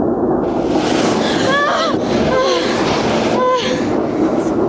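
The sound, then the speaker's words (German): A small amusement-park ride train rattles back into its station with a steady, loud rumbling clatter. Brief higher voices rise above the noise now and then. “Die Bahn zuckelte an Schlossgespenstern vorbei, durchquerte ein Drachenland, in dem Vulkane und Monster um die Wette qualmten, und ratterte schließlich zurück in den Bahnhof.”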